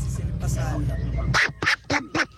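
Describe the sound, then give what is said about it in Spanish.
A voice imitates Donald Duck's quacking, with four short, raspy, nasal bursts in quick succession after a brief stretch of lower voiced sound. “Ahí está el Pato Donald.”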